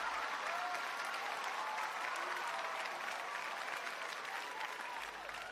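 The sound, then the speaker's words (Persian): Steady applause given as a tribute, dense and even clapping from a crowd that holds at one level from start to finish. “یک چکچک و یک تشویق به افتخاری بزرگ بارن”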